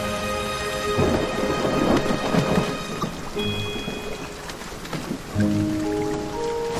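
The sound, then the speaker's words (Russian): Rain falling in the autumn taiga, a dense, steady hiss of drops with low thunder rumbling through it and swelling at moments. “Вау! Дождь! Бежим!”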